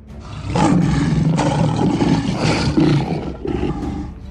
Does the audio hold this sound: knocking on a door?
no